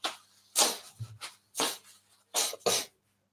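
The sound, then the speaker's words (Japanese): Someone blowing their nose: four strong, breathy blasts in quick succession with a couple of fainter puffs between them, heard alone without talk. “ということでですね、鼻をかみ終わりましたと。”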